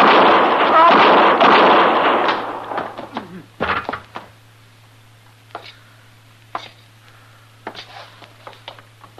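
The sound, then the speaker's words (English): Gunshots ring out in an Old West showdown at sundown involving a U.S. Marshal. A loud voice comes first, then one sharp, heavy blast near the middle, followed by several fainter cracks over a steady low hum. “Killed both of them, Mr. Dillon. I didn't even get a shot off.”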